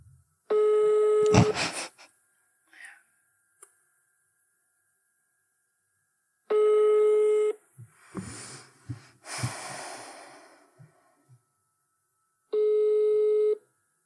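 Telephone ringback tones on an outgoing phone call: three steady, mid-pitched beeps, each about a second long and spaced roughly six seconds apart. Soft breathy snorts and stifled sounds fill the gaps between them.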